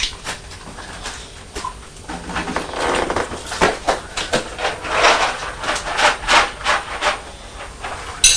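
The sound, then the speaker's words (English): Cat food being scraped out of a bowl: many gritty, scratchy rubbing strokes that keep going throughout, uneven in rhythm and fairly loud, with no voices. “Come on, let's scrape this food.”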